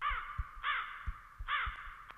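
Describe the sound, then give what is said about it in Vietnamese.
Crows caw in alarm at nightfall, startled into flight by galloping horses. Three harsh, drawn-out caws come at uneven intervals, fairly faint, with soft low thumps between them. “Bầy quạ bị tiếng vó ngựa dọa làm cho sợ hãi bay lên không trung, cất lên những tiếng kêu ai oán hỗn loạn.”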